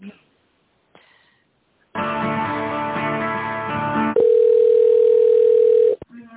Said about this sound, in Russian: Сейчас попробую соединить вас с тендерным отделом.